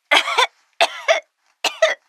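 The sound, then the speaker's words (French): Coughing from a person ill with the flu: three loud, harsh bouts, each a two-part burst, separated by short silences, with no talk. “Tu tousses aussi ? Oui, un peu.”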